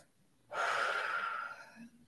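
One deep breath during a guided meditation: a soft, airy rush of air that begins abruptly and fades gradually over about a second, quiet and alone.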